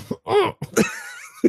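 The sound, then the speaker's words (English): Coughing from a man who chokes mid-sip while drinking a strong 8.5% beer: a few short, harsh bursts with throat-clearing rasps, separated by brief pauses. “Mid-sip. Turn your head and cough, sir.”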